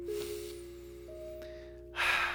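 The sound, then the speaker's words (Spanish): A deep breath taken during a morning devotional: a faint, airy draw of breath over a steady low hum, ending in a louder, brief rush of breath. “yo valoro poder respirar y respire profundo en esta mañana”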